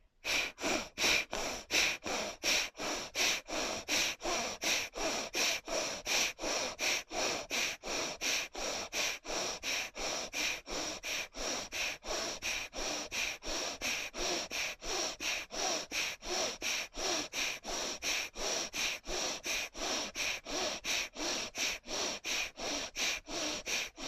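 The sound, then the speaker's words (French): Rapid breaths through one nostril during an alternate nostril breathing exercise: dozens of sharp, even nasal sniffs repeat at a quick, steady pace for the whole stretch, with no talking. “Et expire par cette narine. Puis par la gauche, tu inspires. Change de narine, ferme la gauche maintenant et commence à droite.”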